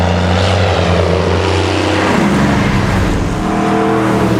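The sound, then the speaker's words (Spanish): An airplane flies overhead with a loud, steady engine drone that fills the whole clip, its tone shifting downward partway through. “¿Qué cree que es? Cree que es un experimento militar. Sí, yo creo que es un avión.”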